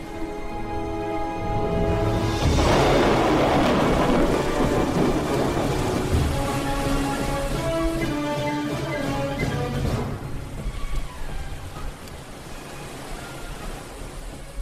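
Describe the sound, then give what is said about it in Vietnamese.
An afternoon thunderstorm at sea: steady rain hisses throughout while a loud roll of thunder breaks early, rumbles for several seconds, then fades away under the continuing downpour. “Chiều đến, mây đen phủ kín bầu trời, sấm sét nổi lên.”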